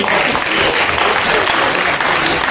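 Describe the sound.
Loud, dense applause from an audience at an evening discussion event, sent off to speakers who have to leave. The clapping is steady and unbroken for the whole short clip.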